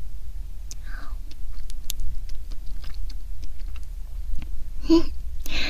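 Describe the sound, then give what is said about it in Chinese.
Soft eating sounds as a freshly baked, warm, sweet treat topped with fresh cream is bitten and chewed: scattered quiet mouth clicks and smacks with a few breathy, whisper-like bursts, close and intimate. “刚烤好的，热腾腾的呢。哼，那赶紧趁热吃吧。我开动喽，学长。”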